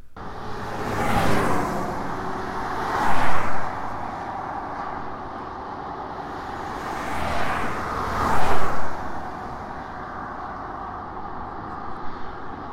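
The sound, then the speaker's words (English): City traffic noise: a steady, broad roar of road vehicles, with two strong louder swells as something passes and a few smaller rises in between. “This was just a small sample of the constant noise we are always immersed to, especially in our cities”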